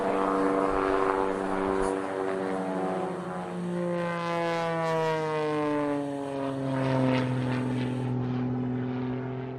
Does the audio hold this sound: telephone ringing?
no